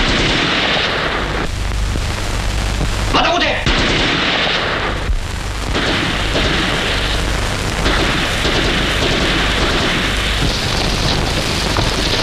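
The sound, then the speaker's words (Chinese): Gunfire and heavy booms in a wartime skirmish, a loud, dense barrage of shots and blasts that continues throughout. “再不出来我就开枪了”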